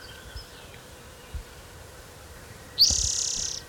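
A warbler sings: a loud, high, rapid buzzy trill that starts abruptly near the end. Before it, a quiet background holds a few faint low thumps.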